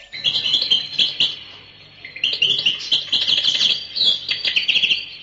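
A small bird kept in a pocket, tossed up into the air, chirps in bright, high-pitched bursts of quick tweets and trills, with a brief quieter lull near the middle before the calls return.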